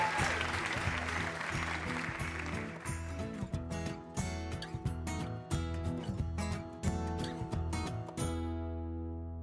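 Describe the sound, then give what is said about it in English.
Audience applause for the first two game show contestants, a dense clatter of clapping over steady tonal backing music, thinning into scattered claps after a few seconds before dying away. “Another hand for our first two contestants, everybody.”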